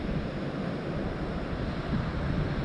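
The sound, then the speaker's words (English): Ocean waves break on a shore as a steady, rushing wash of surf with no distinct single crashes. “And with each wave you hear breaking on the shore,”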